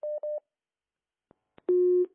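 Telephone tones follow a call to a radio show being cut off. Two short, matching beeps come first, then a couple of faint clicks, and then a longer, lower steady tone.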